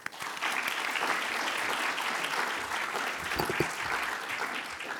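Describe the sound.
Audience applause welcomes an author to the stage for a talk followed by a book signing: a soft, even roar of many hands clapping that stays steady from start to finish.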